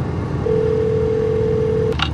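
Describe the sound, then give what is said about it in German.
A telephone tone sounds as a call is dialled through a hands-free system: one long, steady mid-pitched tone lasting about a second and a half, then a brief burst at the end, over a low background hum. “ich ruf da mal an. Du kannst die Freisprecheinrichtung benutzen.”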